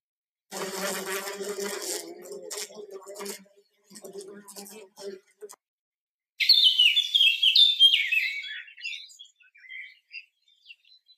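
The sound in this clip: Birds chirp as one of several spring sounds. Rapid high-pitched chirps form a dense burst for a few seconds, then thin out into scattered short calls toward the end.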